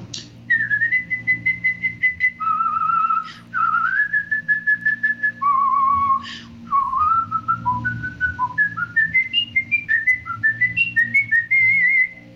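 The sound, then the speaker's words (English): A person whistles a tune, a bright, steady melody of many held and stepping notes in long phrases broken by brief pauses for breath, clear and alone with no talk. “so I can't sing it anymore, but I can whistle it for you.”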